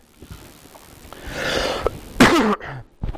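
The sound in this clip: A person coughs during a group Bible study: a few harsh, bursty coughs, the loudest and broadest past the middle, followed by shorter, fainter ones over a quiet background.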